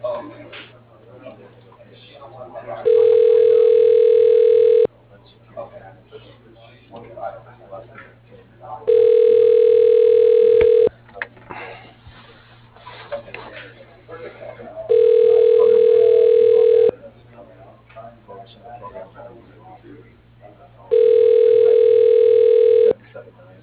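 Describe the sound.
A telephone line rings while a call is transferred to voicemail: four steady, mid-pitched ringback tones, each about two seconds long with longer gaps between, over a low hum and background noise.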